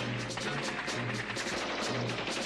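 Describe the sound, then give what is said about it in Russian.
Continuous submachine gun fire from soldiers running forward between knocked-out tanks toward defensive fortifications in a wartime battle. Dense, loud rattling bursts blend into an unbroken roar of gunfire over a low rumbling din. “На бегу ведут непрерывный огонь из пистолетов-пулеметов.”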